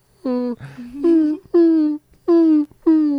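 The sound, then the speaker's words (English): A person imitates a creature whining after it has eaten a fruit in a fantasy role-playing game, producing a string of several nasal, high-pitched whimpers and wails that break into short bursts with brief gaps between them. “I end the spell, so I don't understand him anymore. He's now where you heard him talking before, now you're just hearing whining.”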